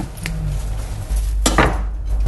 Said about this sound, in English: But then I cut off the crust.